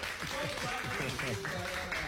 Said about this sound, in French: donc on applaudit pour Manassé. On applaudit Manassé.